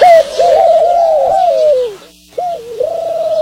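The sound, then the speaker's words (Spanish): A pigeon coos in a long, warbling call that wavers and slides downward, breaks off for a moment of near silence, then resumes with another rolling coo. The calls are loud and clear, with no voices. “Ay, tenemos una paloma aquí.”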